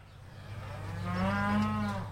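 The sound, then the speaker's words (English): A cow from a herd of black and red Angus, Hereford and Charolais cattle on a farm overlooking Lake Champlain gives one long, low moo that swells in loudness and holds steady before fading, with no talk. “My cow herd is black and red Angus, Hereford and Charolais, which is a French breed. There's one over here.”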